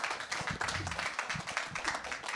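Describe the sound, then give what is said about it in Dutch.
Audience applause for guests at the close of a studio show: dense, steady clapping from many hands, loud and even throughout with no voices over it. “Mag een groot applaus voor mijn gasten van vandaag.”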